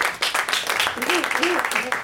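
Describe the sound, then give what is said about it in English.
A short burst of audience applause and clapping plays while someone keeps talking over it. “give him some applause for that”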